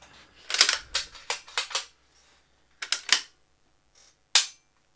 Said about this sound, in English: Live on-air trigger testing. All right, gun's clear. Just make it sound cool. I love that sound.